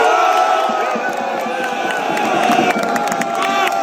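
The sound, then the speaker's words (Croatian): Dinamo Zagreb supporters, the Bad Blue Boys, cheer and chant in song to greet a newly elected club president. A dense crowd roar carries a sustained chorus of many voices at steady, loud level. “Nastao je delirij. Brojni navijači modrih zapalili su baklje, podigli ruke u znak pobjede i novog predsjednika, svog miljenika, pozdravili pjesmom.”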